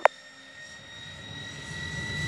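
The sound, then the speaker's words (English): An aircraft takes off from a runway: a steady engine whine with humming tones, under a broad roar that slowly builds and grows louder, after a single sharp click at the start. “line up and take off immediately, runway 06 left. Taking off, runway 06 left”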